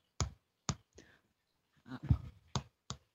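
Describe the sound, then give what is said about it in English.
Fingers tap on a computer keyboard to imitate a small tapping, giving a few quiet, sharp clicks: three spaced taps, a brief cluster of softer knocks, then two more crisp taps. “Tapping on the keyboard. Okay. So that's what I was hearing, something like that.”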